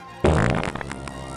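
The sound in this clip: A long, loud fart from a man straining during a comic military drill scene bursts in suddenly and rumbles on for about a second, raspy and sputtering, fading slightly toward the end.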